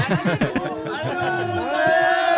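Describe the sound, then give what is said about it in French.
Stadium crowd warming up at a France national team football match, a steady murmur of chatter and voices behind the commentators, with a few brief sustained tones rising out of the noise near the end. “Tandis que le public se chauffe derrière nous.”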